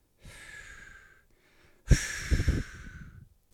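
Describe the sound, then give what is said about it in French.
Someone blowing hard, as if on a candle flame: two breathy gusts of air. The first is moderate and lasts about a second. After a short pause comes a louder, longer blast with uneven, pulsing surges. “Marie-Lou souffle fort, très fort.”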